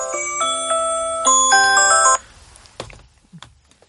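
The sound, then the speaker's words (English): An alarm goes off, playing a bright electronic melody of stepped chiming tones loudly for about two seconds. It then cuts off abruptly, followed by a few soft knocks and thumps. “Oh, that's my alarm.”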